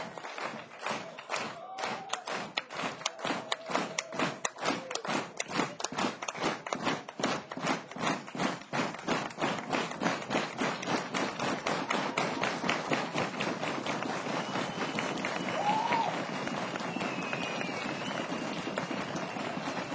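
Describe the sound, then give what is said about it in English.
Feet stamping in Danish square dancing: many sharp thumps in a brisk, steady beat that runs for the whole twenty seconds. “Danish square dancing, huh?”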